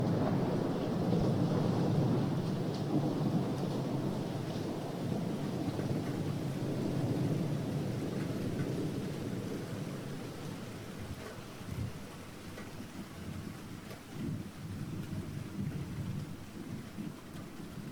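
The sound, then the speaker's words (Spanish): Rain drumming on a roof during a thunderstorm: a steady, dense hiss of falling rain over deep, rolling thunder rumble. Heaviest in the first half, then slightly softer, with no voices. “a muchas personas nos gusta también escuchar la lluvia en el tejado o el sonido de la tormenta.”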